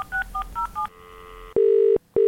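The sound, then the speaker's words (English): Telephone dialling to call someone back: four quick keypad beeps, then a fainter steady line tone and two loud, buzzing ringback pulses, with no talk. “Okay, we seem to have lost Tina. Bear with me for 1 second, listeners. I'm going to get her back on straight away.”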